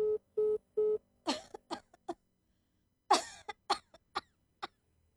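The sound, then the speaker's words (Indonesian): A telephone keypad is dialed: three short, even electronic beeps at a steady pitch in quick succession, followed by a run of coughs and strained vocal sounds. “Coba mak telepon lagi lah Haris kok.”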